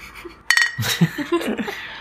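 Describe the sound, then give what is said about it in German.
Beer glasses clink together in a toast with one bright, ringing chink. Voices and soft laughter follow right after. “Ja, was wir vergessen haben, ist Anstoßen. Anstoßen. Auf das Wetter.”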